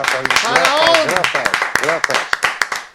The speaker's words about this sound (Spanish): que recibimos con un fortísimo aplauso, amigos. ¡Bravo!